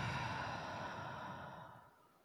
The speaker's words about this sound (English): One more big breath in. And exhale.